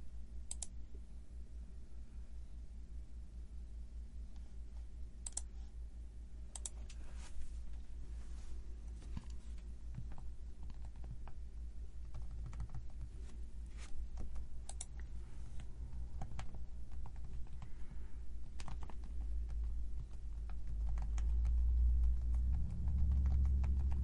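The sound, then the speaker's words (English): Typing on a computer keyboard: faint, irregular key clicks scattered throughout, over a steady low hum that grows slightly louder near the end. “Sorry for the dead air. I know that's probably the capital sin of all radio, but you got to listen to me type”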